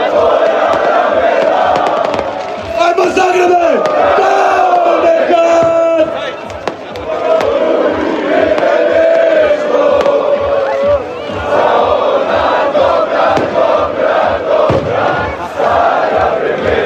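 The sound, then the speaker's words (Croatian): Loud crowd of Dinamo football players and fans cheering and chanting in the car park in front of the stadium's west stand, celebrating the end of a winning league season; a sustained, dense roar with sung tones throughout. “Slavlje se Stravnjaka preselilo na parking ispred zapadne tribine stadiona, gdje su igrači i navijači nastavili proslavu završetka još jedne uspješne sezone.”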